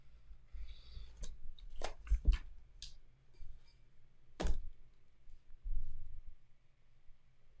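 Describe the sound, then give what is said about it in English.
Quiet, irregular clicks and sharp taps while a note is written down, a handful of crisp knocks spread over several seconds with soft rustling between them and no talking. “Yes, I will. Let me write that down.”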